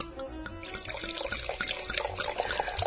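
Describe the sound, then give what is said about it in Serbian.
Wine poured from a bottle into a glass at a winery, a soft, continuous trickling gurgle of liquid that runs faintly and evenly through the whole moment. “Evo, ovo je zvuk koji vino iz flaše, evo, proizvodi kada se preliva u čašu.”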